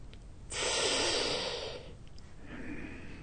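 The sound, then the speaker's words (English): A sharp intake of breath, one loud hissing inhale about a second long that rises abruptly, then tapers off, with no talk around it. “It's drawing in the breath.”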